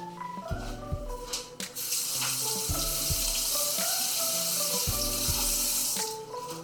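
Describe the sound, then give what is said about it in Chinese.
A cutting board is rinsed under a running kitchen tap after chopping garlic for a garlic-seafood dish. The water makes a steady, broad hiss, broken by a few light knocks. “好，那我们砧板稍微做一下简单的清洁，接下来要处理海鲜的部分。”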